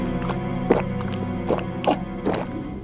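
Careful footsteps through a jungle, a few soft, separate thuds spaced unevenly over a sustained tonal drone.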